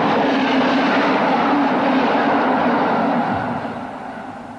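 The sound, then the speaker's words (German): A train running on rails makes a loud, continuous rumbling roar that holds steady, then gradually fades during the last second. “Die Bahn fährt immer.”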